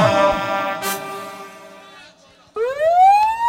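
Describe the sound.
An ambulance siren wails: a long harmonic tone slides downward and fades, then after a brief lull a loud new wail sweeps steadily upward in pitch.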